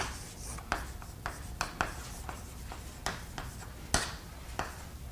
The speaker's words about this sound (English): And you write the index like this, the index of H and G.